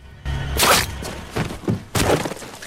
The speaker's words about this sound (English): Cholo pulls his harpoon gun out and fires as a zombie shambles from behind a brick wall.